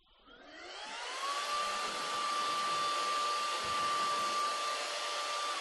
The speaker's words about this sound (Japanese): そして、これスイッチ入れるとね、